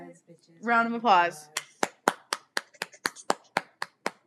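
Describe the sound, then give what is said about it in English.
Full-hand claps from a single person, a steady series of many sharp, crisp claps that follows a brief voice. “How do you guys clap? Do you clap, like, full hand or, like, just fingertips kind of clap? Like, fingertip. I just did a full hand clap. That was a full hand clap?”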